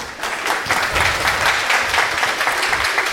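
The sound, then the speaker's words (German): Canned applause sound effect: a steady wash of many hands clapping at an even loudness for about three seconds, with no voices. “das ist der billige Applaus jedes Mal”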